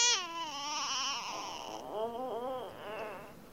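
A frightened baby cries, starting with a long high wavering wail and breaking into several shorter, choppy sobs that rise and fall, with no talk over it.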